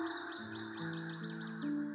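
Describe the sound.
Small birds chirp while swaying on branches. Many quick, high, repeated tweets overlap in a lively stream above a steady low hum.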